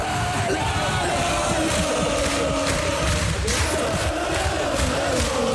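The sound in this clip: Football fans in the stands roaring as Elversberg wins promotion to the Bundesliga: a loud, dense wall of crowd cheering and yelling that stays unbroken and steady throughout.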